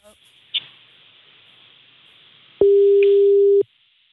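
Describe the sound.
A telephone line tone sounds during a call placed to a radio show: one steady, mid-pitched beep lasting about a second over faint line hiss.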